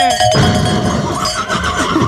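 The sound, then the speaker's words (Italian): A horse neighs, a loud, wavering whinny that fills about two seconds with no talk over it. “Il cavallo anche.”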